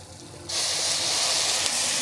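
A splash of water sizzles in a hot covered pan of roasting red mullet fillets, a sudden bright hiss that starts abruptly and holds steady and loud to the end.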